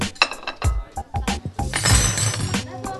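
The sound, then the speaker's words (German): Dishes and cutlery clinking as a table is set for a meal, with many bright glassy clinks and clatters in an irregular rhythm, some louder knocks among lighter taps. “deckt jetzt schon mal den Tisch.”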